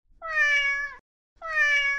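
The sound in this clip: A cat meows twice, each call clear and about a second long with a slight downward bend at the end, separated by a brief silence.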